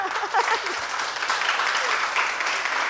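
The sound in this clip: Audience applause after a religious talk, a steady, moderately loud wash of many hands clapping with no break.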